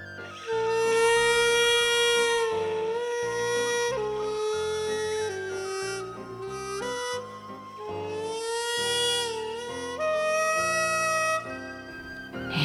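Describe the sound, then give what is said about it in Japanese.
A hichiriki, the Japanese double-reed gagaku instrument, plays slow melodic phrases with a piercing, nasal reed tone, long sustained notes and sliding pitch bends between them. “次に篳篥という楽器、私は天地雅楽でこの楽器を吹いているんですけれども”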